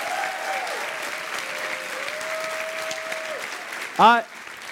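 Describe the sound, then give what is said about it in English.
An audience applauds for a pastor at a church service: steady, even clapping at a moderate level with a sustained tone running through it and a brief louder burst near the end. “So I'll make some noise for Pastor Dale.”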